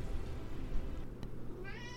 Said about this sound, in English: And that's the cat.